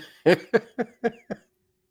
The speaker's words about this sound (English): Everybody's smoking and you're coughing.